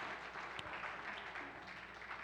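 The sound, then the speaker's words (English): A church audience gives a round of applause for the pianist. The clapping is faint, steady and even throughout, with no voices standing out. “Well, today, round of applause for Susan, because, you know, having to fight through the piano.”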